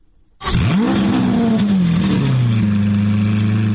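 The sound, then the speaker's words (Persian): A car engine at the Geneva Motor Show bursts into a loud rev. Its pitch rises sharply, then settles into a steady, powerful drone that holds to the end. “این صدای اتومبیل های حاضر در نمایشگاه خودروی ژنو است”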